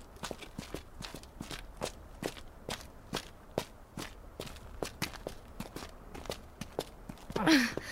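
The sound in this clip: Footsteps climb stairs inside a building, a long run of many quick, evenly spaced steps, fairly quiet and heard alone.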